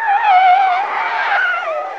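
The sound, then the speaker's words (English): Car tyres skidding through a drift, one continuous loud, high-pitched screech with a slightly wavering tone that holds for about two seconds, heard alone. “Sliding? Did you see the Tokyo Drift he just did?”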